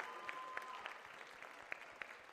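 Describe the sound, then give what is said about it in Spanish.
Applause for a group of high school students, a steady, fairly quiet wash of clapping with a few sharper claps standing out. “Un aplauso para ellos.”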